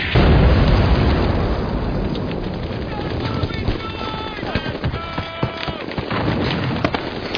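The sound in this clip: An explosion and gunfire in a battle scene where soldiers are pinned down by a sniper. A deep, heavy rumble opens, then a rapid series of sharp pops and crackling bursts follows, with shouting voices mixed in.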